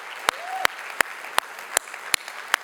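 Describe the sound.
A church audience applauds to welcome its online and Webster campuses, with a continuous wash of clapping and seven sharp claps falling at an even beat.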